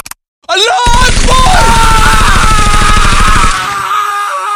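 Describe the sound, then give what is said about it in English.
Rapid automatic gunfire from a modified Glock pistol firing about 1,200 rounds per minute, a loud, unbroken burst lasting nearly three seconds with yelling and screaming voices over it. “my friend cut the both of them down using a modified Glock that shoots 1,200 rounds per minute. I got a snippet of that audio. Let me play it now.”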